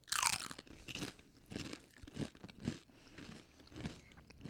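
Crunching of Mexican street corn flavoured Dorito chips being eaten: a loud first bite followed by many crisp chewing crunches at a steady, uneven pace.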